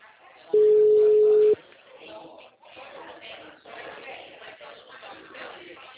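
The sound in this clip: On an outgoing phone call, a single steady ringback tone sounds for about a second, then people talk over the line.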